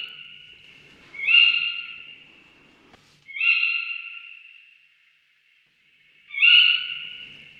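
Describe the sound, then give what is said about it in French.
Tawny owl calls: three shrill, high-pitched calls, each about a second long and separated by pauses of a second or more, with no other sound. “Alors ensuite, on va présenter la chouette hulotte, qui est une chouette plutôt répandue aussi.”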